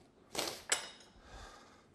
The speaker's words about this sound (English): then take a nice big spoon. I'm gonna come in and scoop this out, setting it on the cutting board.